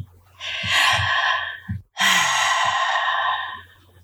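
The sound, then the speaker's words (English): Two long, deep breaths drawn by a person, each a loud breathy rush of air lasting over a second, separated by a brief pause, with no talking. “Let's take a deep breath.”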